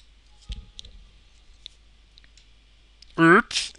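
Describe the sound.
Computer mouse clicking: a few sharp, light clicks in near silence, followed by a short burst of voice.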